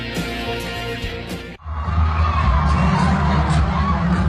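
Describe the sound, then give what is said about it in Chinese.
Fans scream and cheer at a snowboarding exhibition in a Beijing stadium, a loud, dense crowd roar that dips briefly near the midpoint and then swells back at full strength. “如果只听粉丝们的尖叫声，你可能以为这是某个明星的演唱会，但其实这只是在鸟巢进行的费雪单板滑雪比赛中的一个表演环节。”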